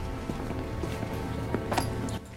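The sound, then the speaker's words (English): A jailer's footsteps descend some steps in a dungeon, a few soft, irregular treads half buried in steady background noise. “Later, in the dungeon, the jailer is descending some steps.”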